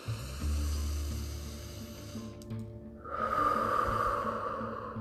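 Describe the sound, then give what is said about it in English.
Deep breathing drawn from the chest and abdomen during a guided relaxation: two long, steady breaths heard as soft airy hissing, the second brighter and slightly louder, with no talking. “We're going to release the tension with this breath from our chest and our abdomen.”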